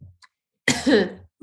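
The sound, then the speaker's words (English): A person coughs from smoke, one harsh, loud cough lasting about half a second, with brief faint breathy sounds before and after it. “I'm so over the smoke and the coughing and telling you that I'm coughing because of the smoke.”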